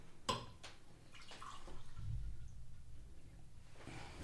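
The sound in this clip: A drink being poured for a guest: a faint, steady liquid stream lasting a couple of seconds, preceded by a few soft knocks.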